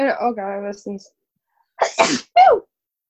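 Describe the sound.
A person sneezes just after speaking a few words. A couple of breathy catches lead into a sharp, explosive burst, loud against the silence around it.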